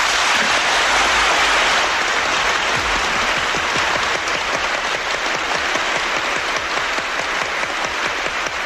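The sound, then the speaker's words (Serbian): Long, sustained applause from standing parliamentary deputies at the 1963 proclamation of the Yugoslav federal constitution: dense, even clapping from a large assembly, steady and unbroken throughout, with no speech over it. “Svi poslanici su ponovo ustali i dugotrajnim aplauzom odobravaju tekst o proglašenju Ustava Socijalističke federativne republike”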